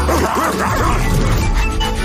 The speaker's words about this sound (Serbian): Ko je pustio psa ovamo? Baš sladak.